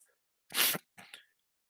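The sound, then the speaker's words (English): A person sneezes once, loudly and abruptly, in a sharp breathy burst. A shorter, softer breathy sound follows, and no one talks during it. “another sneeze. You know that comes in the show. You know we get the sneezes early.”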